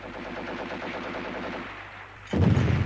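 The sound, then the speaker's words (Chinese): Enemy artillery shelling and gunfire close by: a dense, continuous rumble and crackle of firing, cut off by a sudden loud, boomy blast near the end. “敌人的炮声越来越近，炮弹在不远的地方爆炸。”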